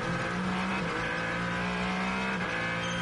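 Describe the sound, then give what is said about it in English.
A Ferrari race car engine drones loudly and steadily during a race, a sustained high-revving roar with strong harmonics that holds for about three seconds, with no voices. “The Ferrari of Alessandro Pagridi. Pagridi pushing along.”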